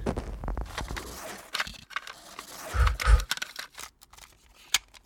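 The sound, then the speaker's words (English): Hand-cleaning of a mud-caked cassette tape: faint rubbing, scraping and small clicks, with a pair of dull, heavier thumps midway and a sharp click near the end. “I've been putting off playing it because it's kind of gross and I didn't want it to damage my tape player. Here, let me try to clean it a little more.”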